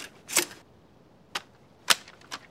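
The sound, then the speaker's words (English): Typewriter keys are hammered in sparse, sharp clacks, four separate strikes with uneven gaps between them, fairly quiet and with no talk. “Winters hammering the keys of his typewriter”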